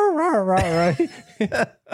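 A small dog gives a quack-like call while being taught to call ducks. A long, nasal, wavering whine-moan is followed by a few short yips.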